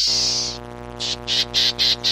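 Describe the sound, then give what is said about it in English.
Buzzy call of a black-tailed gnatcatcher, a tiny bird: one longer harsh, nasal buzz, then several short, evenly spaced buzzy notes. A steady low hum runs underneath. “While the equally small black-tailed netcatcher puts it like this.”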